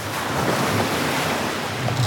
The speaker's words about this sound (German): Bevor Seeungeheuer Sven zum Abtauchen ausholte, ließ er noch einmal die flotte Lotte über die Wellen tanzen.